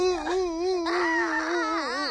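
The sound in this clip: A crying voice, likely a voiced character named Dodo, wails in a sustained, quavering sob with wavering pitch, breaking briefly before a second, stronger stretch of crying.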